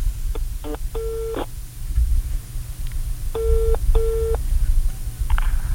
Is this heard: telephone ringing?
yes